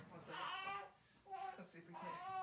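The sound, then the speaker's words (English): A fussy baby cries and whimpers in a few short, wavering bursts separated by brief pauses, faint and alone. “And more fussy baby.”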